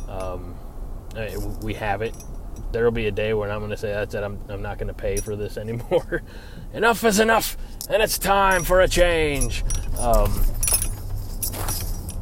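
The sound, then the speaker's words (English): Ornaments dangling from a car's rearview mirror jingle and clink in the background while a person talks steadily over them. “I've got a few things to dangle from my from my rearview mirror. So if you hear any jingling in the background, even though we're in November, I'm not one of those people that are already going to be having the sleigh bells out. It's just a couple of things from dangling off of my rearview mirror.”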